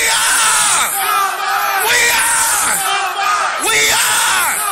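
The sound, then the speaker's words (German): A crowd shouts their school's battle cry at a memorial ceremony: many loud voices yelling together in a steady roar, swelling in a few strong waves across the whole clip. “Und bei der Gedenkfeier rufen viele den Schlachtruf ihrer Schule raus.”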